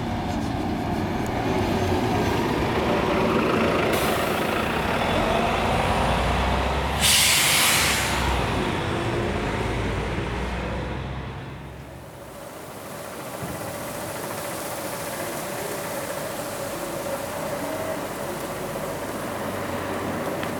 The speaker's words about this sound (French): J'entends le bruit d'un moteur. Et le passage d'un bus.